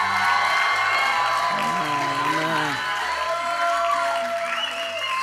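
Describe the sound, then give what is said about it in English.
A church audience applauds during a service, with dense steady clapping and a few cheers and whoops over instrumental music with a bass line, holding at an even level throughout. “Why don't we give Jesus a hand of praise? Come on.”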